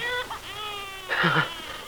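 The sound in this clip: Plaintive, muffled wailing of a newborn baby, a few strained, high, tearful cry bursts rising and breaking, fairly steady in loudness.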